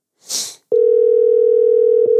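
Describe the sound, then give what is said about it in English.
A telephone dial tone sounds while a call is being placed. A short burst of hiss comes first, then a steady, loud, unbroken tone that continues to the end. “Let's give this guy a call.”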